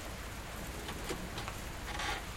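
Heavy rain falling as a soft, steady hiss with scattered patter, unbroken and without voices.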